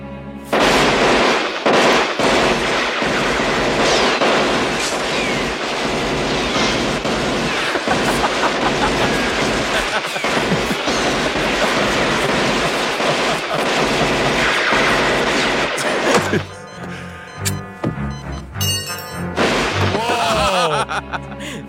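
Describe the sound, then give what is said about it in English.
Gunfire and grenade explosions in a video game form a dense, loud barrage of cracks and blasts for most of the time, then give way to sparser, separated bursts near the end. “Grenade throw is incredible.”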